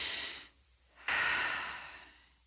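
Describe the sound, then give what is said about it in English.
An audience takes a big deep breath together: a noisy inhale, a short pause, then a loud, breathy exhale that slowly fades away. “Everybody take a big, deep breath. No, really, everybody take a big, deep breath.”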